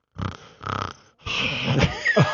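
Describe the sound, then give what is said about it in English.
A voice imitates snoring, mimicking someone asleep in a movie theater: two short, rasping snore-like breaths, then a longer wheezing, snorting stretch with rough, uneven breaths. “she's snoring”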